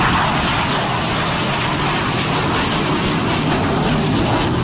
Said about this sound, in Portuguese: Esse é o som de um dos caças nesse evento aéreo em São Paulo,